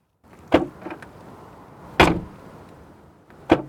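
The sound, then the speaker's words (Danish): A car's boot lid is opened, giving a hollow, tinny clunk like a cheap tin can. Three sharp, loud knocks stand out, with a fainter tap after the first, over quiet background. “Når man åbner bagagerummet, så lyder det simpelthen som om, at det er en meget billig blikspand, at man åbner.”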